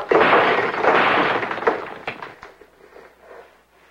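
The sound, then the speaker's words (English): A plaster cast hurled to the floor smashes with a loud, sharp crash, followed by a scatter of smaller cracks and debris sounds that fade over a few seconds. “Van Gogh hurls the plaster cast to the floor.”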